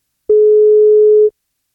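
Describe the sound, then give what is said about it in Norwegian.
A telephone ringback tone from an outgoing call: one steady, mid-pitched tone lasting about a second, heard alone before silence. “I dag skal vi prøve å ringe til Mina Dyan, som fyller 20 år I dag. Dersom hun tar telefonen, så skal det bli kake på.”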